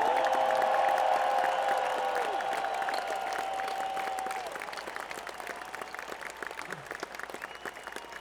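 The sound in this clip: Concert audience applauding and cheering the road crew, a loud, sustained wash of clapping that runs throughout, with a held instrument tone underneath that fades out after the first few seconds.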